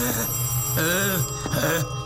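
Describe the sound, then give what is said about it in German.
A telephone rings with a steady, loud electronic trill, briefly broken near the middle before it resumes. No voices are heard. The call is for a prison chaplain. “Heben Sie ab. Der Anruf ist doch für Sie.”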